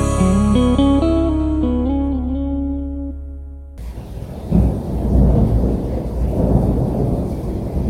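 Rolling thunder rumbles as a dense, noisy, low roar that swells and churns for several seconds after a stretch of tonal music ends, loud and steady throughout.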